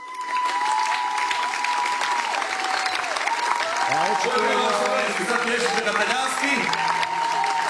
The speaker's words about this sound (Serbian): Navijač u publici, kao što čujete.